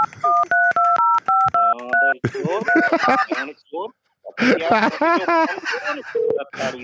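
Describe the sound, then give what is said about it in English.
Telephone number being dialed: a rapid run of short, clean electronic keypad beeps at differing pitches, followed by someone speaking. “Hold on, Donna, I'm gonna give you a call.”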